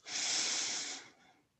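A person breathes in and out during a twisting stretch exercise. A single airy, hissing breath swells quickly, holds for about a second, then fades away with no talk.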